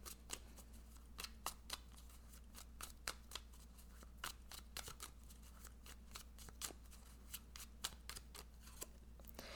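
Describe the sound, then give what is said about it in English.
Faint handling of an oracle card deck as one card is pulled for the week: a scattered run of many light, sharp clicks and ticks over a low, steady hum. “Let me pull one oracle card for the week.”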